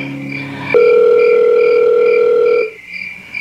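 A telephone dial tone while placing a call: a brief blend of other tones gives way to a loud, steady, unbroken tone lasting about two seconds, which then cuts off.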